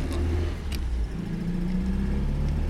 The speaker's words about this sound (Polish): Dobra, jedziemy. Udało się odpalić.